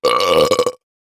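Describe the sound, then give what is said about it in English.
A single long, loud belch, offered as a gross sound in a guessing game: a buzzy, drawn-out burp under a second long with a rough, throaty rumble, heard alone before silence. “A burp, or a belch, is what we call it when our bodies release gas through our mouths.”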